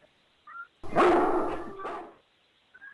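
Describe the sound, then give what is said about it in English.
A dog's bark: one loud, drawn-out yelp lasting about a second, with faint short yips before and after it. “I think it's a dog.”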